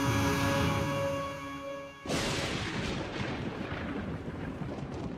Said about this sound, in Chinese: 一道闪电划破夜空，客厅瞬间如白昼般亮起，狂风吹拂，窗帘上下翻飞，巨大的雷声轰轰作响。